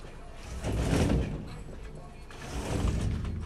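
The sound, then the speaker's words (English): A window being shut at home, heard as two rumbling, scraping bursts of sliding movement a second or so apart, moderately loud. “Okay, yeah, I went on to close my window, y'all, because, see, we can't get into that right now.”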